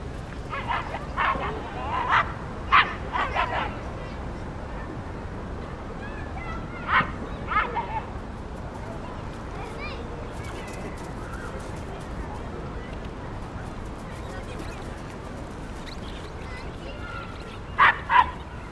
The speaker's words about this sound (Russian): Он увидел во дворе человека, играющего с собакой.